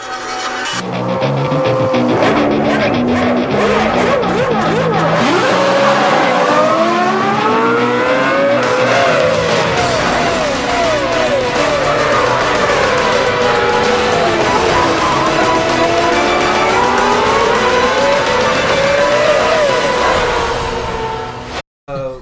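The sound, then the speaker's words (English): Race car engines roar without a break in a racing video game, their pitch climbing and dropping through gear changes and corners. The sound stays loud for the whole stretch and is cut off abruptly at the end. “Oh, I'm out! Crash! Somebody hit me in the rear, turn two, and then somebody hit me in the rear again in turn three.”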